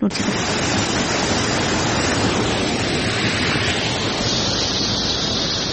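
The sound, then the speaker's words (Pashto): Cold, clear water rushing steadily at the Mazar Baba spring amid green gardens, a constant dense roar with no breaks. “د شنو باغونو په منځ کې د خورا یخي پاکي او سپینې اوبو په لرلو مشهوره د مزار بابا په نوم چینه هره جمعه د سلګونو سیلانیانو”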